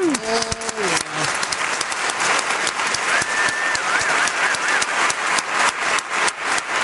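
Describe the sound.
Loud, dense audience applause for a band being introduced at a live show. Steady clapping continues throughout with no letup.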